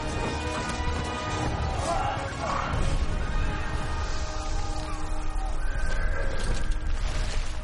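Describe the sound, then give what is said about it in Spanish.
Bombs explode on a battlefield in a war film, with dense, loud crashes and booms running throughout amid the clamor of fighting, and voices mixed in. “bombas caen sobre el terreno”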